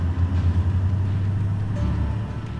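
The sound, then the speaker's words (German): Car engine rumbling steadily while driving, as the driver chooses between first and second gear. A continuous low drone stays at an even level throughout, with no talk. “Ich entscheide zwischen dem ersten und dem zweiten Gang.”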